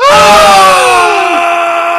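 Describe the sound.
A man's voice imitates an anime fighter's attack scream, letting out one loud, strained yell that holds for about two seconds and slides lower in pitch toward the end.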